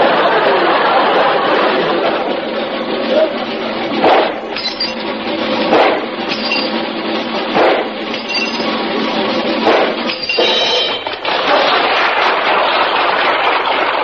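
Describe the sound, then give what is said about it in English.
Gunshots from a trick shooter firing backwards between his legs at clay pipes on a revolving wheel: several sharp, clinking cracks spaced a second or two apart over a steady, hissy background. “will attempt to shoot the tops off these clay pipes, which, as you can see, are attached to a revolving wheel”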